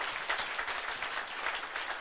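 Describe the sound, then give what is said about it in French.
An audience applauds during a church service, producing a dense, steady wash of hand claps that stays soft and unbroken for about two seconds. “Can you put your hands together for the Lord? Est-ce qu'on capable mettre main ensemble pour le Seigneur? Applaudis bon Dieu, applaudis bon Dieu.”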